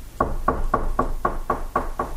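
Eight evenly spaced knocks on a door, rapid and steady at about four per second, each a firm, moderately loud rap over low background hiss.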